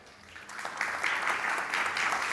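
Conference audience applause welcoming a moderator onto the stage, starting softly and swelling after a moment into steady, dense clapping.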